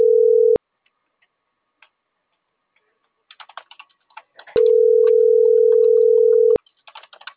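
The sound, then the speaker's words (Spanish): Beep tones sound during a phone call: a short steady beep, then a pause with faint clicks, then a longer two-second beep at the same pitch. “Con el beep de la llamada no escucho bien.”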